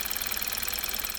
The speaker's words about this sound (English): This is the sound of a normal Kia Optima.